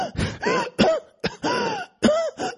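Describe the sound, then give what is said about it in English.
A man's voice imitates another man coughing a little, giving several rough, hoarse bursts with throaty, voiced tails, loud and broken by short gaps. “he's looking at me, and he cough a little bit”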